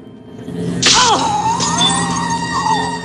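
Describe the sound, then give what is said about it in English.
A sharp whack of a kick to a dazed opponent's arm in a fight: one loud hit with a brief whoosh and a ringing tone that slides downward, followed by a steady low background. “Lee swiftly attacks his dazed opponent with a kick to the arm.”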